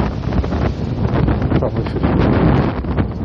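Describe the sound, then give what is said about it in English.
Wind blowing from the north roars loudly and steadily against the microphone, with gusty surges and rough buffeting throughout and no voices. “This wind is coming almost directly out of the north.”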